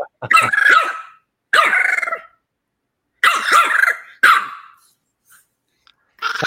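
A golden retriever barks and yowls in long, wavering, high-pitched bursts, four in a row separated by short pauses and a fifth starting at the end, with no talk.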